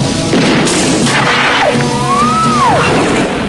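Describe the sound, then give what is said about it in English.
A loud, sustained boom of an explosion as an arrow strikes a man in a Rambo film, a dense roaring blast with a whistling tone that curves upward and then drops away. “Rambo fires the arrow. It hits Tay and he disintegrates.”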